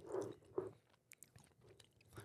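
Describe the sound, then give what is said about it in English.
Quiet, close chewing of a crunchy, very salty snack: two heavier crunching bites at the start, then softer chews and small crackles. “Oh, that was a good one. That's a good crunch right there. Okay. Just eating in y'all's ears right now.”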